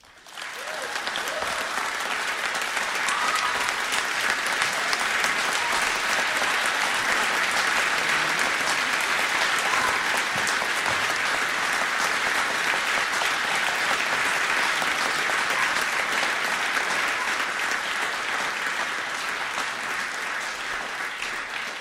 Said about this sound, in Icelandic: Já, það má alveg klappa fyrir því.